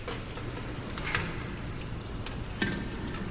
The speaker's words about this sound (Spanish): lava un escurridor con un estropajo.